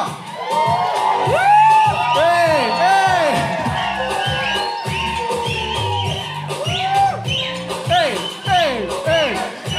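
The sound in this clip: An audience cheers and whoops, loud repeated shouts and rising, falling whoops over a steady crowd roar, with someone talking through it.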